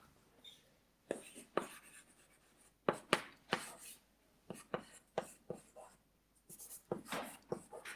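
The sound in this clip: Writing on a board, with many scratchy, hissing strokes in irregular bursts, some short and sharp and others drawn out. Quiet talk can be heard alongside them.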